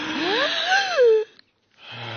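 Wheezing breath after a deep inhale: a squeaky, whistling tone whose pitch glides up and down before falling away, followed by a short silence and a softer breathy rush.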